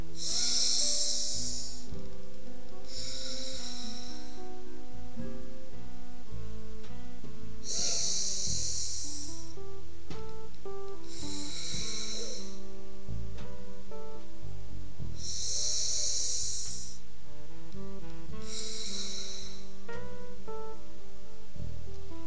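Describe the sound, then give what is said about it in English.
Long, deep nasal breathing: three slow inhale-and-exhale pairs, each a loud airy hiss through the nose, spaced by pauses over soft, steady background music. “then we move to breath two, which is long, deep inhale and exhale. So let's go. We'll do this 3 times.”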